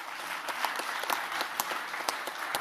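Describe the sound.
Audience applause welcoming a speaker to a debate: fairly soft, dense clapping from many hands, continuous and even throughout.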